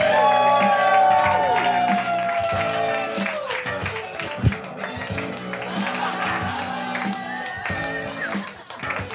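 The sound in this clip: Loud, dense cheering and applause from a live audience as the host walks onto the stage at a stoner comedy show, a steady wash of clapping and shouting that keeps going for the whole stretch.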